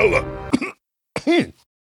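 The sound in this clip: A person clears their throat in two rough, voiced bursts separated by a brief pause. The second burst is longer and ends in a groaning tone that dips in pitch.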